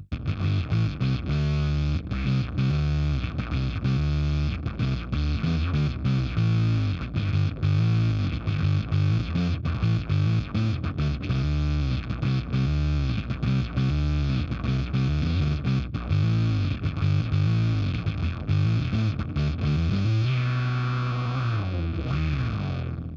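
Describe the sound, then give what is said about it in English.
Gritty, distorted synthesizer tone, a home-built bass-range patch that sounds dirty and filthy, playing a steady, loud run of repeated notes. It holds one sustained note near the end. “Just gets dirty and filthy, and I am enjoying it. That's my first ever synth sound I put together.”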